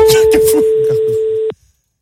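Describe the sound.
A single steady telephone ringing tone sounds while calling room service at the Meurice hotel in Paris. It holds for about a second and a half under people talking, then cuts off abruptly into silence.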